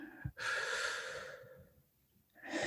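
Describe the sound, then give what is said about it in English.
Slow, deep breathing during a guided meditation: a long, airy breath swells and slowly fades, and after a short quiet gap another breath begins. Soft and unaccompanied. “And let's breathe in and out one last time.”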